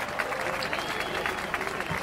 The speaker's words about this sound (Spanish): Un aplauso para todos ellos y ellas.